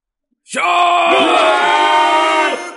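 A crowd of many people screaming together in one loud, sustained, harmonically rich cry. It starts abruptly and holds steady for about two seconds before cutting off.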